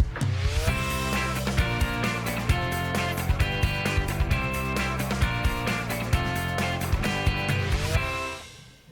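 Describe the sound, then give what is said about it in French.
Radio jingle for the questions segment of an aviation show: loud, steady music with a regular beat and sustained tones, playing throughout before cutting off near the end. “Le jingle de la foire aux questions, remise de gaz, hein, pour terminer l'émission.”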